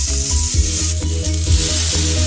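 A burger patty frying on the stovetop, with oil brushed on the meat rather than the pan, left unturned to form a crust. The sizzle is a bright, continuous hiss, steady and fairly loud, with no talk.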